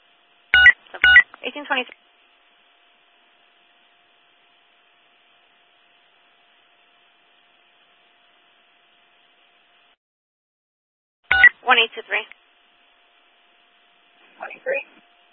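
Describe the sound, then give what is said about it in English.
Telephone keypad tones as someone dials to call a caller back, in a few short clusters of quick beeps separated by long silences. “We're gonna give him a call back just to let him know, but it was negative result.”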